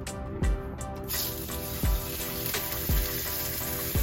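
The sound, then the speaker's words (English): A steak sizzles in a hot pan, giving a steady, dense frying hiss that holds at an even level for about four seconds. “Simple. We'll let that fry for a couple minutes.”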